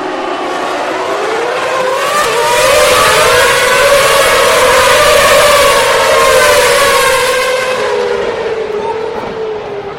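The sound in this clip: Formula One cars launching from the starting grid at a 2012 race, a loud, continuous engine scream whose pitch climbs and swells through the middle, then eases slightly toward the end.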